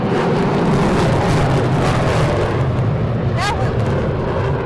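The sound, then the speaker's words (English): Military demonstration jets flying overhead make a loud, steady, rumbling roar that fills the whole clip without easing, with a brief high chirp briefly cutting through near the end. “And we had the Thunderbirds fly just for you.”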